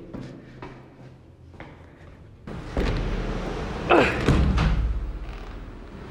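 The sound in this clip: Heavy thumps and bangs as a living-room door is forced open during a storm, with a few loud knocks over a continuous low roar.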